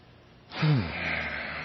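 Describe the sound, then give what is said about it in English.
A deep breath drawn before reading a quote aloud: one quick, loud gasping intake with a brief voiced edge, trailing into a steady breathy hiss. “Kind of got to take a breath for this one.”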